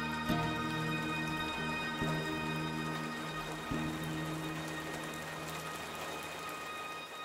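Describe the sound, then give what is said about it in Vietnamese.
Heavy rain with strong wind, a dense, even downpour hiss that holds steady throughout, with faint sustained tones and a few soft low knocks underneath. “mưa gió lớn quá, mình có nên về không cô? Hay là mình kiếm chỗ đậu lại cho bớt mưa rồi gì?”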